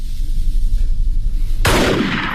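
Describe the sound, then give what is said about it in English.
A single sharp gunshot, a warning shot from a gun near a cliff, cracks out loudly after a steady low rumble of background noise, its blast trailing off briefly. “Don't shoot, you bloody fool. That was a warning shot.”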